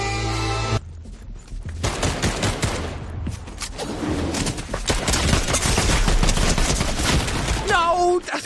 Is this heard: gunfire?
yes